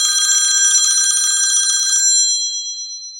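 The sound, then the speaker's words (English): A telephone ringing in a home, with a bright, high metallic trill held steadily for about two seconds before the bell fades away, with no voices. “It wasn't too long, though, before the telephone rang.”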